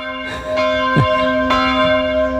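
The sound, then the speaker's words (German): Church bells ring in several strikes, each blooming into a sustained, shimmering metallic tone that overlaps the next, loud and steady with no voices. “Ja, das sind nicht von mir, die Glocken, nee.”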